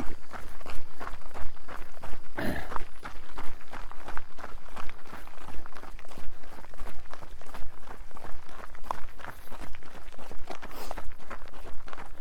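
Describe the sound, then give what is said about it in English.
Running footsteps of a woman: a long, steady train of many quick footfalls at an even, moderate loudness that continues for the whole stretch, with no talk. “La femme court. Sorry? The woman runs.”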